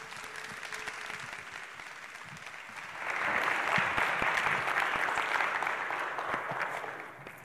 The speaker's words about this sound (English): So let's have a warm CLC welcome to Pastor Wayne Okamachi.